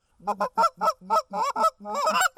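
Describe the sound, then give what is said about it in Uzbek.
Canada geese honk during a goose hunt on a cold, rainy day: a quick series of many nasal honks, loud and clear, with no talk. “Bu Kanada g'ozlarini ovlashning eng yaxshi yo'li.”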